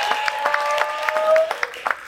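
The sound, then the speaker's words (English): Audience applause at an onstage interview, many hands clapping with distinct sharp slaps and a few voices calling out over it, fairly loud and lasting about two seconds. “Clap it up for that.”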